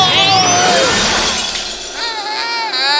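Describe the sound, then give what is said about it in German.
A ball is dropped and shatters with a bright, splintering crash of breaking glass, while a raised, excited voice rings out over the noise. “Er hat die Kugel runterfallen lassen. Oh, Knotter, Schlotter. Jetzt ist sie kaputt.”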